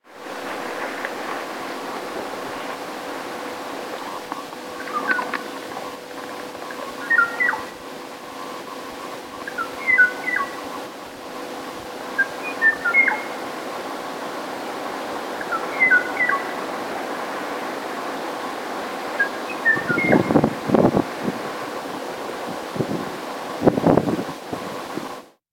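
Call of the extinct Kauai o'o bird: faint, short two-note whistles repeating every few seconds over a steady hiss, with a few low thumps near the end.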